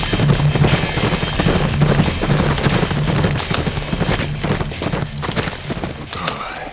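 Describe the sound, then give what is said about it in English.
A squad of horses gallops through a mountain pass. Hooves beat in a loud, dense, continuous clip-clop rhythm with heavy thudding underneath. “The squad kept galloping, and soon they were through it, out of the pass, and barreling down into a meadow of purple flowers.”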